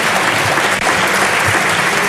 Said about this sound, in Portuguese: Aplausos da bancada do PSD.